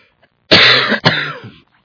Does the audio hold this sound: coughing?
yes